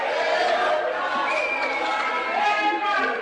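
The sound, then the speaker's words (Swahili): Crowd cheering and ululating as Zambia's presidential election result is announced: a dense wash of excited voices, with high wavering cries rising above the shouting and chatter. “Nderemo na vifijo zilizagaa wakati Mwangala Zalumis, mwenyekiti wa tume ya uchaguzi ya Zambia, alipotangaza matokeo ya uchaguzi wa rais mapema leo Jumanne.”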